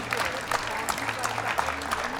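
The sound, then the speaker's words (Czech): Audience applause welcoming a guest at the Chodské slavnosti folk festival in Domažlice, with crisp claps recurring through a steady patter and a voice heard faintly beneath the clapping. “Můžete ho podpořit a přivítat potleskem, Martin Šimša.”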